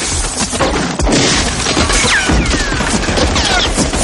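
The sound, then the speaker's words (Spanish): Loud, dense gunfire in a shootout, with bullets punching through walls: a continuous barrage of sharp cracks and impacts with no pause across the whole stretch. “Los impactos atraviesan las paredes.”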